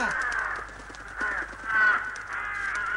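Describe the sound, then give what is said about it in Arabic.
Crows caw with several harsh, rasping calls in an uneven sequence, one cry standing out louder than the rest. “هيا هيا ابتعدوا عن بيتي أيتها الغربان، هيا هيا هيا ابتعدوا أيها الطيور”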